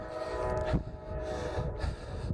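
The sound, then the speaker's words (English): A train passing gives a steady, rumbling roar with a sustained tonal hum above it, moderately loud and continuous throughout without voices. “As you can hear the train in the background, no doubt.”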